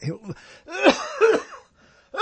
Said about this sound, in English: here comes a big cough